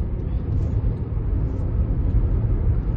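Car engine and road rumble from a heavy-bodied car that is not a kei car, heard during acceleration as a loud, dense low roar that stays fairly even, with no voices.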